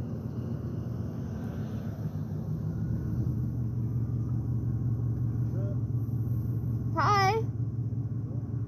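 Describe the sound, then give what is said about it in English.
Low, steady engine rumble of a rusty truck driving by holds loud and even throughout, with a brief higher warbling tone near the end. “Oh, my God. It's that rusty truck again. I hope he's not here to kidnap us.”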